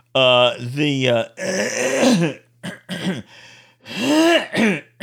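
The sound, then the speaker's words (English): Someone clears their throat repeatedly in a string of harsh, gravelly, voiced rasps and grunts, loud bursts broken by brief pauses, over a steady low hum. “so that you don't hear me clearing my throat just like then”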